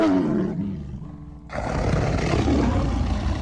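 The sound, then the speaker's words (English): Prowling big cats growl and roar: a low, rumbling growl comes first, then after a brief dip a louder, broad, sustained roar, with no voices. “roar, growl. But I was expecting them to roar because I was told that they did that.”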